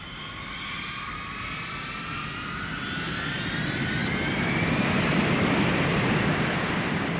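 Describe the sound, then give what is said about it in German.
Steady jet roar from nineteen Mirage fighter jets taking off from a military base. A broad rushing noise carries whining tones that climb slowly in pitch as the sound grows slightly louder. “Heute Morgen um 4.38 Uhr sind 19 Kampfflugzeuge vom Typ Mirage von unserer Militärbasis in Verbon-sur-Cône gestartet.”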